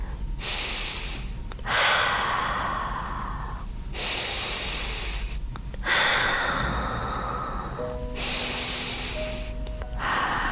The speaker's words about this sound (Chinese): 如果你觉得现在有必要的话，你可以闭上眼睛，深呼吸三次。